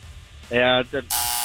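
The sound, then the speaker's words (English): A quiz buzzer goes off during a call-in trivia game with a timed answer. It gives a harsh, steady buzz, then a second shorter buzz, and then a burst of bright hiss. “You got the buzzer.”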